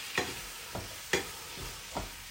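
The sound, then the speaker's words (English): Food sizzles in lemon juice in a pan, a steady hiss broken by several sharp scraping taps of stirring. “But it's basically cooking away there in the lemon juice.”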